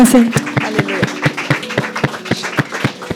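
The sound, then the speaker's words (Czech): Rhythmic audience clapping at a church service, a steady beat of sharp claps at roughly four per second, with a sustained tone and voices behind it. “Let's give them a hand. Super, zatleskáme si.”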